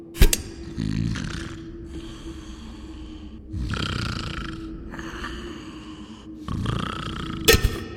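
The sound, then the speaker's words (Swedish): Snoring imitated by a voice as a mummy sleeping in a sarcophagus: a few slow, rasping inhale snores with quieter breathy pauses between them, framed by short sharp bursts at the start and end. “Lite mumiesnark. Rätt ner i ljudburken.”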